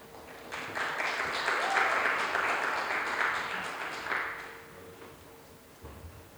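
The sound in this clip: A church audience applauds to welcome a speaker, with clapping that swells quickly and holds for a few seconds before tapering off to a faint patter.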